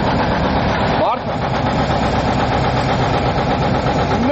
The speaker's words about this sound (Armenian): տեխնիկան տարածքում միացված էր